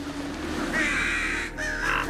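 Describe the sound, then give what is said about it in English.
Crows cawing from a roost in a tree above a dark, snowy courtyard: two drawn-out, hoarse caws, fairly faint over a steady low rumble. “A roost of crows flaps away from the branches above her head.”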